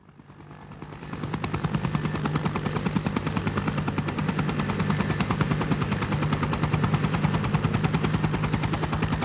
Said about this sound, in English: Helicopter. Say it again. Helicopter. プロペラが回るよ。Spin the propeller.